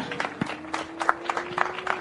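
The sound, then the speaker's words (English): Spectators give a round of applause to a junior race winner at a motorsport podium ceremony, scattered and moderately quiet clapping made of many separate claps. “And for our junior winner out here today, another round of applause for Maxim Direksh.”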